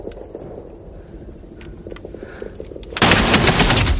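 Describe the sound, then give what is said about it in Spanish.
Gunfire in a World War II film scene where a soldier shoots through a partition wall: a low, quiet rumble gives way abruptly to a loud, harsh burst that holds to the end. “Henderson ha disparado contra el tabique.”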